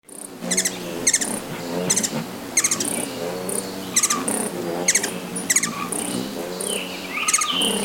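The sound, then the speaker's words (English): Grasshopper sparrow song: many thin, high, insect-like buzzy trills repeated at fairly regular intervals, with other soft bird calls around them. “Grasshopper sparrow.”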